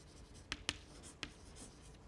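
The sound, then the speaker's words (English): Faint writing as pseudocode is worked out in an algorithms recitation, with three sharp taps or strokes standing out above soft scratching. “Do you want to help me write a pseudocode?”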